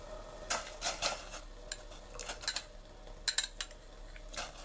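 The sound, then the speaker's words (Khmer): Utensils and cookware clink and knock as tofu is added to a pot of hot water, a run of many light, sharp taps and rattles at an uneven pace, with no talk. “ទឹករបស់យើងក្តៅហើយមិនចាំបាច់ពុះម្ដងទៀតក៏បានដែរយើងបង់តៅហ៊ូចូល”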